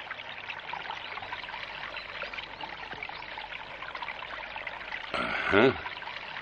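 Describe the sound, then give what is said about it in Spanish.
A stream flows between the trees of a forest, a steady rushing and trickling of water that runs through the whole clip, with a short, louder burst of sound near the end. “Ubican en el mapa un arroyo que se abre paso entre los árboles de un bosque.”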